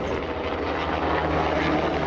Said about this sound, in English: Back in South L.A., under the airport flight path, a police helicopter provides a different kind of soundtrack